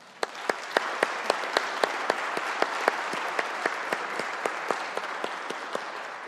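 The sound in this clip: Applause fills the West Virginia House chamber as members welcome a Berkeley County leadership class: a steady, dense wash of clapping, with sharp individual claps standing out at a regular, almost rhythmic pace throughout.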